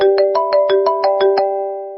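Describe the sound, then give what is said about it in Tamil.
A phone rings with a rapid train of evenly spaced electronic pulses over a steady tone, then fades after the pulses stop. “குணசேகரனுடைய phone அடிக்க ஆரம்பிச்சது”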